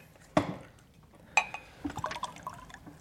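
Water is poured into a glass, heard quietly: a couple of sharp knocks, then a short burst of irregular trickling and splashing.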